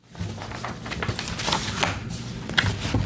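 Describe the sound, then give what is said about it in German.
Papers rustle and are leafed through during a cockpit crew briefing in a briefing room before a Condor A320 flight. Many soft, crinkling shuffles and brushes sound over a steady low hum, with no talk. “Das ist nicht ganz so spannend, um da zuzuhören. Viel Papiergeraschel.”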